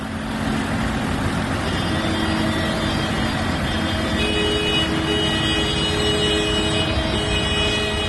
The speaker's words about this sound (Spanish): Este que escuchas es el sonido en las carreteras. Estos días las tractoradas han cortado autovías y principales vías de la red de carreteras de La Rioja.